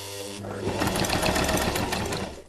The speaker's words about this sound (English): Now that I've got my layers, I'm going to put them together and I'm going to sew them.